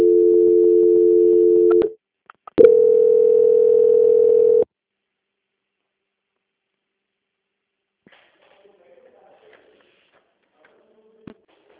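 Telephone line tones play while a call is transferred to a bank's quality-control desk: two long, steady mid-pitched tones separated by a short gap, then near silence broken only by faint scattered clicks.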